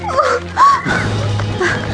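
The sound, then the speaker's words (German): Dogs barking while being set on fleeing people in an audio drama: a few short, yelping barks with bending pitch over a low rumbling background. “Weil sie die Hunde auf uns hetzen.”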